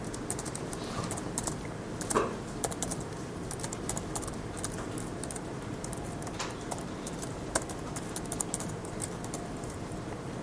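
Code being typed on a computer keyboard: many soft, scattered key clicks in an irregular rhythm, faint and with no voices.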